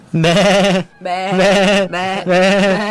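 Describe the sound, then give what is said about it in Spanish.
Sheep bleating in a few loud, long, wavering calls, back to back with only brief gaps between them. “Pero apareció un borrego acá.”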